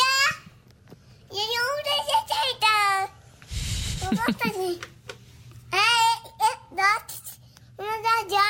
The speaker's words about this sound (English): He sounds like he's talking, but what the, I mean, we've heard him say this. Saying, oh, no. Right, like, oh, no. Just a word here and there, but, like, he's trying to have conversations, but it just doesn't make any sense. Here he is babbling.